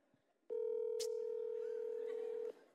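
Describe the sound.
A telephone call being placed to a father's phone, heard as one steady electronic tone held for about two seconds, with a brief click near its middle, alone without talk.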